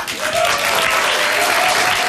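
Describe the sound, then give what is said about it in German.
A large crowd applauds in a dense, unbroken roar of clapping that holds steady and loud from start to finish. “55.000 Menschen jubeln uns zu, schmeißen ihre Hüte in die Luft.”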